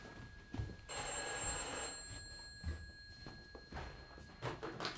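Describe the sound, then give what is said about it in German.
A telephone bell rings loudly in one bright, rattling burst of about a second, then stops, leaving a few soft thuds and near quiet. “Das Telefon läutet.”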